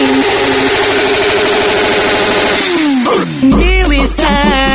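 Motorcycle engines revving, a Hornet and an 1100, droning loudly over a pounding music beat, with the revs sweeping up and down toward the end.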